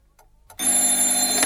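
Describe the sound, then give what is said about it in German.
A telephone rings early in the morning: one bright, sustained ring that starts abruptly after a moment of near silence and holds steady to the end. “Kurz nach 7 in der Früh klingelte das Telefon.”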